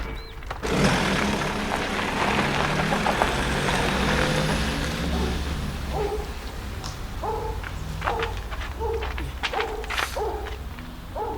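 A car engine starts and drives off, a loud rumbling roar rising from just under a second in and holding steady before easing, with birds chirping repeatedly in the later seconds.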